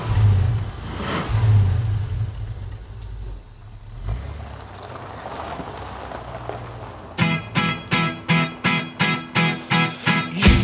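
Car engine revving during a cross-country driving record segment, a low rumbling drone that turns into a fast, regular pulsing throb near the end.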